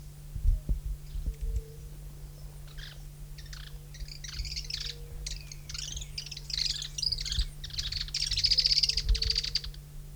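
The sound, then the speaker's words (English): Several birds call with many high chirps and short trills. The calls are faint over a steady low hum, grow busier in the middle and bunch into a denser run of calls near the end. “24, several birds present.”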